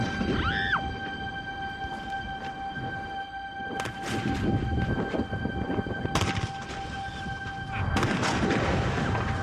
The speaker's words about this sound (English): let's blow it up.